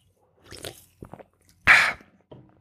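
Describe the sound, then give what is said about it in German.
Sip of a soft drink: a few faint wet slurping and swallowing noises, then one short louder gulp, and a little soft movement afterward. “Zuallererst aber noch einen Schluck von meinem schönen Erfrischungsgetränk hier”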